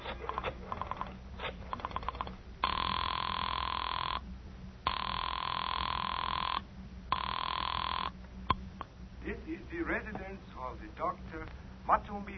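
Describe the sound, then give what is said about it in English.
A telephone ringing after a number is dialed: three steady, even rings separated by short gaps, with people talking before and after. “I dug through the telephone book and I found Dr. Matson B. Forsythe's number and I dialed it.”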